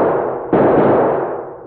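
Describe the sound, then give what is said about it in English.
Two loud gunshots during a close-range gunfight, the second coming about half a second after the first. Each blast leaves a long, fading rumble, and no voices are heard. “And those last shots were awful close.”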